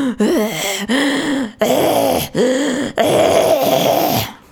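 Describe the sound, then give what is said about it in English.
A person imitates someone breathing loudly while asleep. About five heavy, groaning, drawn-out breaths come in quick succession, each loud and raspy, with short gaps between them. “And now he's like breathing so loud. It's like,”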